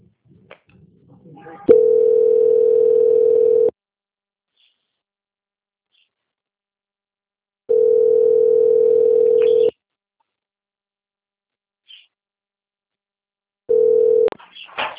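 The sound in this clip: A telephone line tone plays while a call is held for transfer: a steady, mid-pitched electronic hum in three evenly spaced bursts of about two seconds each, separated by silence, the last one cut short.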